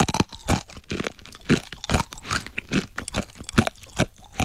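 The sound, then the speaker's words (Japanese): Crunchy dry natto is chewed in rapid, crisp crunches that repeat in a steady rhythm, loud and close, with no talking. “ドライ納豆食っていいっすか？ あ、そのまま、はい。 これで音多分取れますもんね、きっとね。ではでは、いただきます。”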